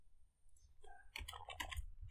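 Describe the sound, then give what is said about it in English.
Typing on a computer keyboard to search for a movie: a quick run of faint, light clicks in the second half, with soft rustle between them. “Yeah, type it in. Moon movie.”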